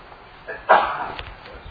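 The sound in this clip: A single sharp sneeze bursts out during a church sermon: one loud, breathy explosion that fades quickly over about half a second, alone against a quiet background.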